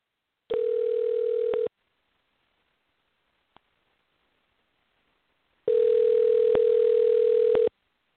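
Telephone line tone heard while dialing a number: two long, steady, buzzing tones, the second one longer, separated by a silent gap with a single sharp click.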